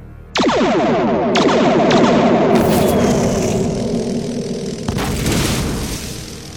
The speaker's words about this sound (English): In that case, you leave me no option. Fire the torpedoes.